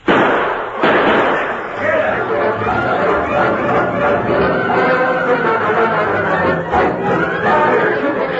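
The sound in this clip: Gunshots in a radio drama shootout: two sharp, loud bangs in quick succession at the start, followed by dense, continuous commotion with overlapping voices that stays loud to the end.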